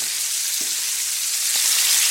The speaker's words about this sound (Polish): Przewracam teraz te kaczuchy. Tryskają jeszcze, więc trzeba uważać, żeby się nie poparzyć.